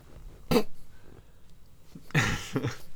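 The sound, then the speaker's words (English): A man clears his throat with no speech around it: one short, harsh burst, then after a pause a longer, rougher rasping clearing that comes in two pushes. “you don't realise how much Michael Horden clears his throat when speaking, and you realise it's actually hugely part of his acting”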